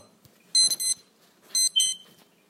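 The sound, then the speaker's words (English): An electronic alarm goes off, sounding bright, high-pitched beeps in two short clusters of a few quick pulses each, separated by a brief pause. “sorry for that alarm going off”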